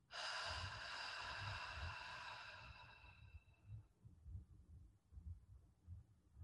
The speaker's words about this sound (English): I want you to take a long, slow breath. So you're going to do a deep inhale and then long, slow exhale.